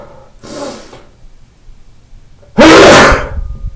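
A sneeze from someone suffering a cold: a softer breathy burst comes first, then one loud, sharp, explosive sneeze that tails off gradually, with no talking.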